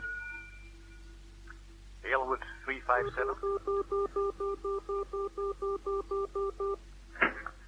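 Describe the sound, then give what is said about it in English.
Telephone number being dialed by touch-tone keypad: a long, even run of about a dozen short, steady beeps at a regular rhythm, with brief voices just before and after. “I dialed Haywood 357.”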